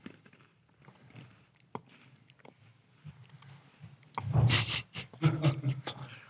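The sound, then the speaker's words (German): Dry spelt-flour biscuit with cocoa cream filling being chewed: soft, quiet mouth sounds at first, then loud, crunchy bites and chewing bursts in the last couple of seconds. “Ich habe ähm, hab mal so einen trockenen Keks gegessen. Das ist nicht gut, wenn man weitersprechen möchte, aber.”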